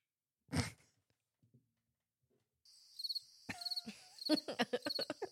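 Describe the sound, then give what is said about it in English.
Crickets chirp in a steady, high, pulsing trill that starts partway through, with a few sharp clicks mixed in. A brief burst of noise comes earlier, before the crickets begin. “The crickets is my favorite, I think.”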